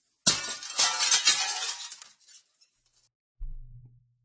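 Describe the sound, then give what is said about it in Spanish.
A mirror shatters: one loud glass crash breaks into bright tinkling and clinking debris that rings on for about two seconds and then dies away, followed shortly by a brief low tone. “rompiendo el espejo”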